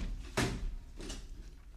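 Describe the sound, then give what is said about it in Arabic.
A door being shut: a soft thud followed by a second, fainter knock, both quiet and brief. “استنى ما رد الباب.”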